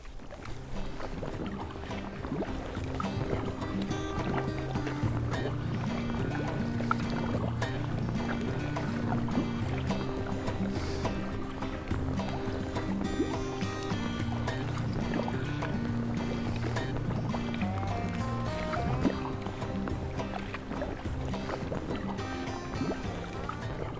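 Water sounds from a boat being paddled on Upper Loch Torridon, a steady, unbroken wash with wind noise running throughout and no talk.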